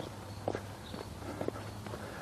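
Footsteps of a person walking rather than jogging: a few soft, evenly spaced steps, faint, over a low steady hum.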